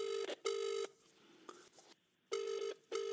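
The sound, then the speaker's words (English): An outgoing mobile phone call rings with the familiar double-burst ring tone, two pairs of steady, loud buzzing pulses separated by a quiet pause, with no voices. “Let's give him a call then, shall we?”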